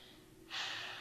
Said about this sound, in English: All right, one more time. Just take a deep breath.